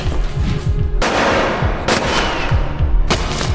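Gunshots in a church among pews near a coffin: three sharp, loud blasts spaced about a second apart, over a steady low rumbling background.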